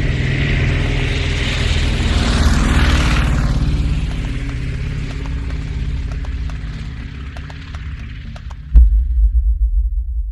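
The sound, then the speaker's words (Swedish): An aircraft engine starting up: a steady low drone with broad hiss runs throughout, then a sudden louder, deep throbbing rumble kicks in near the end. “Ändå väljer han att starta planet.”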